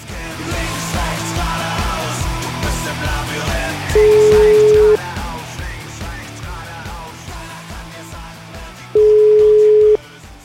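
An Italian telephone ringing tone plays as a call is placed from a radio studio. Two steady one-second beeps come about five seconds apart over rhythmic background music.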